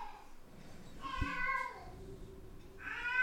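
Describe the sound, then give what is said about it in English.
An old cat screams in two drawn-out, wavering yowls, the first longer and the second rising at the end, loud and alone with no talk. “That's our cat screaming. Our senior, one of our oldest cat.”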